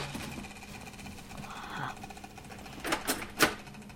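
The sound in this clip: A spin art machine whirs steadily as it spins paint, a continuous mechanical motor hum, with a few louder knocks toward the end.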